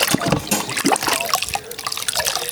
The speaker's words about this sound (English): I'm just washing up a few dishes here. Get it cleaned up or rather than have them sit here for a while.